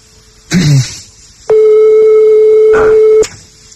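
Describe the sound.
A telephone line rings during a call. One long, steady, loud ringback tone is heard alone, preceded by a brief voice-like burst.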